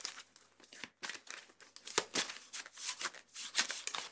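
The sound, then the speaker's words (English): Papery rustling and shuffling as a deck of tarot cards is handled, a continuous busy crinkle of cards sliding and flicking against each other, fairly loud and steady throughout with no talking. “Yes, I do have a deck of tarot cards with me. Don't judge me.”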